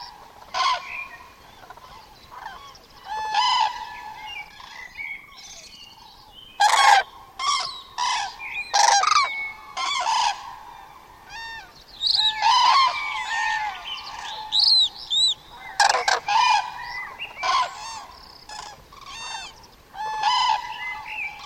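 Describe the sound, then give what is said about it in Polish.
Common cranes call in open country, trumpeting loudly and often, with the harsh calls overlapping in irregular bursts throughout. No voices are heard. “Pogoda robi się powoli nieco melancholijna, tak jak melancholijny jest klangor żurawi. Ten donośny głos niesie się w otwartym terenie przez wiele kilometrów.”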